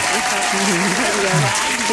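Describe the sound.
Audience applause for performers, a thick continuous patter of many hands lasting the full two seconds, with a voice speaking over it.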